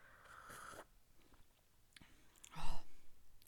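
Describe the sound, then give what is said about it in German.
Someone takes a sip of a drink spiced with cinnamon and ginger: a short, louder slurp comes near the end, after quieter breathy sounds. “Weil Zimt macht ja glücklich und Zimt ist eines meiner Lieblingswürze und Ingwer. Und ich nehme jetzt einen Schluck.”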